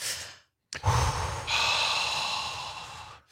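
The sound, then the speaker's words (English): A group takes a collective deep cleansing breath: a sharp, audible inhale after a brief silence, then a long, sustained, sighing exhale that fades out. “we're going to all join together and hold hands and take a collective cleansing breath.”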